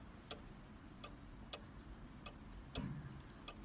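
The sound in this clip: Clock ticking: faint, sharp ticks arriving at a steady, unhurried pace, roughly six of them, over a low background hiss with no talk.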